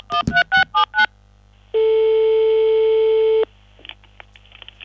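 A telephone call being placed: five short dialing tones in quick succession, a brief pause, then one long steady ringing tone. Faint scattered clicks follow.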